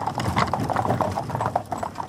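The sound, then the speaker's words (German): Hooves of a horse pulling a carriage clip-clop over rough ground in a quick, steady, uneven rhythm, with constant rattling and no voices. “Eine Kutsche rattert über Stock und Stein.”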